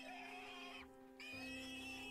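Pigs squealing at night, a steady, high-pitched, harmonic squeal that breaks off briefly in the middle and then resumes, faint and heard alone.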